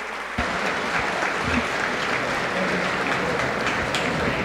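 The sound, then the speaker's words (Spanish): Audience applause for the first-place winner in the instrumental category of a 36th annual festival: loud, dense, steady clapping that starts abruptly and continues evenly throughout. “La ovación del público.”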